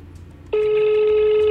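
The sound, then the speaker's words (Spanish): A telephone tone sounds on a call: after half a second of quiet low hum, a loud steady continuous tone begins abruptly and holds unchanged to the end. “Buzón de mensajes. Tendrá cobro a partir de este momento. Ni te voy a volver a llamar. Me desviaste la llamada.”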